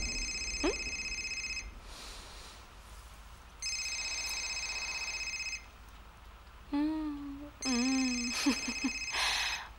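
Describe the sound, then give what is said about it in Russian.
A telephone rings in three long, loud electronic bursts separated by pauses, each a steady high tone. Brief voice-like sounds break in just before the third ring. “Звонит телефон Кости”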